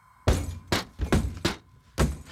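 Window glass is smashed during a break-in: five heavy, sharp impacts with bright shattering crashes, spaced unevenly over a couple of seconds.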